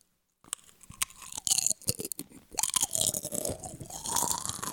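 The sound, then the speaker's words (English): Crunchy chips are eaten close up, with many crisp, irregular crunches and chewing sounds after a brief silence, growing denser toward the end. “We're going to eat some chips.”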